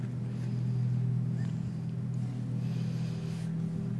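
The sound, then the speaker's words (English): Distant freeway traffic rolls as a steady low rumble and drone, continuous and even, with no single vehicle standing out. “And I point out towards the freeway. It's like cars. It's far, but like, you know, it's there.”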